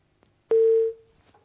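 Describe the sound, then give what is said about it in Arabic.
A single steady telephone line tone sounds after a caller's call drops. It holds at one pitch for about half a second, loud and alone, then cuts off into near silence. “يبدو بقى اللي ماشي خلاص. نحاول اتصال تاني يا استاذ احمد ونشوف سؤالك ايه”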